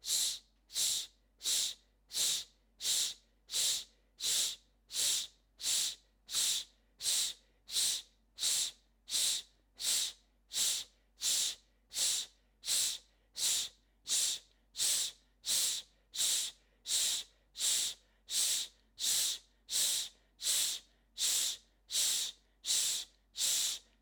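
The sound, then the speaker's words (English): Quick shushing exhales in a breathing exercise during a morning self-care routine: many short, hissy bursts of breath repeat in a steady, evenly spaced rhythm, with no talking. “Remember, it's that quick exhale, like shushing. Take a deep breath in. Begin. Shh, shh.”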